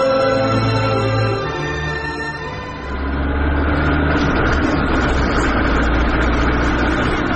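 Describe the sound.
A car engine runs with a loud, steady rumble, shifting from a smoother tone to a rougher, fuller roar partway through and holding that level to the end.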